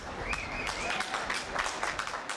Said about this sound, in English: In Vienna, trains arriving from Hungary were met by applause.